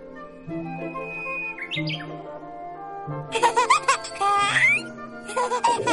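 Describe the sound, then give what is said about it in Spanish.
Bright, quick twittering chirps of a bird landing on a blossoming plum tree branch, coming in short high bursts in the second half over sustained musical tones. “Un pájaro se posa en una rama.”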